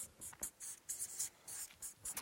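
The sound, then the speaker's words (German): Handwriting of the word 'Liebe' scratches out as a quick run of short, dry strokes with brief pauses between them, alone and fairly quiet. “Ich schreibe hier mal hin. Liebe.”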